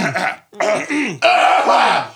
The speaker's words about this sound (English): All right, my throat's clear now.